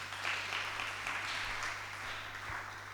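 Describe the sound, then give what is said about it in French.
A church audience applauding, a soft continuous patter of clapping with a steady low electrical hum beneath and a few faint thumps. “Acclamez pour la sœur.”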